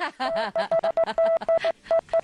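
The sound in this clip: Many short censorship bleeps at one steady mid pitch cut into a talking voice in a choppy, Morse-code-like rhythm of brief bursts and gaps.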